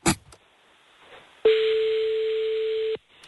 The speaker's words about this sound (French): Putain, on est performant, mais le standard sonne vite.